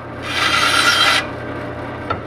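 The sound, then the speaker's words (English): An old bandsaw, built about 1953, cuts the dowel end off a wooden bat: a loud, rasping cut lasts about a second. The motor's steady hum carries on after it, and a small click comes near the end. “Bednark then cuts the dowel ends off using an old but reliable bandsaw.”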